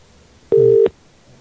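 One telephone keypad tone sounds alone: a short, steady electronic beep lasting about a third of a second, with faint hiss before and after.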